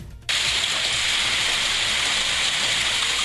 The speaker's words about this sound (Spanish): Mucho granizo chiquito, no piedra, granizo.